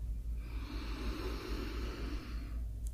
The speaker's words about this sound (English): Deep breath in through the nose for a count of three.